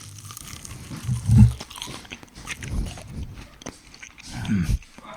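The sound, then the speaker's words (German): Crunchy bites into a garlic nugget dipped in cheese sauce, a few loud crisp crunches spaced over several seconds with softer chewing and mouth noises between them. “Ihr dürft gleich da rein, wie ich in diese Nugget reinmache.”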